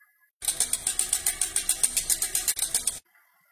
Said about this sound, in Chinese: 老师亲自做了这个实验，当车轮转的较慢时，发出的声音较低沉，音调低；